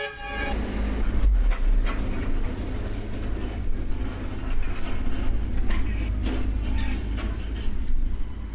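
Train at the Phnom Penh International Airport rail station, heard as a continuous broad rumble and hiss with scattered mechanical clatter that stays fairly loud throughout.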